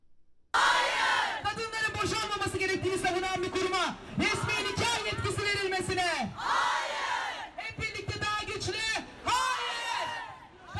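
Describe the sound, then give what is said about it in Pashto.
A large crowd of protesters in Istanbul, opposing a law that would let imams perform marriage ceremonies, shouts slogans together in loud, rhythmic chanted bursts that repeat with brief gaps between phrases. “د ترکی استنبول ښار کې دا احتجاج کوونکي خزه نارې وهي چې دوی به نه غلي کیږي.”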